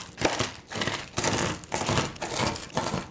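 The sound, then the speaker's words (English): A knife chops dry roasted, salted shelled pistachios in a quick series of crunchy, rattling strokes, each a short burst of crackle, fairly faint with no talk. “these are dry roasted and salted, and we need to give them a little bit of a chop.”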